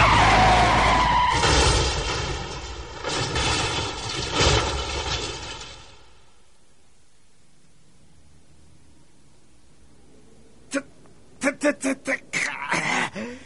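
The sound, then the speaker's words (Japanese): Car tires skid under sudden emergency braking, a long harsh screeching hiss lasting several seconds before cutting off. After a quiet pause comes a quick burst of sharp hits. “カキョインがとっさに急ブレーキを踏まなければ今頃”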